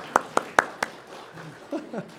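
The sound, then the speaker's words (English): Four sharp, evenly spaced hand claps as a church audience gives a volunteer a hand during a sermon, followed by brief voices. “Oh, give Dan a hand.”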